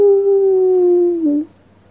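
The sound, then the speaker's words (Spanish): A person's voice imitates a wolf howl: one long, loud sustained tone that slides slowly downward for about a second and a half, then cuts off, heard alone. “Los lobos fijaron sus miradas en esa extraña luz y comenzaron a aullar.”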